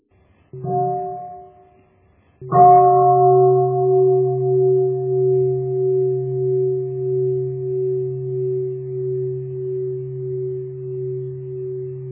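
A great temple bell at a pagoda, struck during the evening service. A short first stroke is followed by a second, louder strike whose deep tone rings on for many seconds with a slow, pulsing waver.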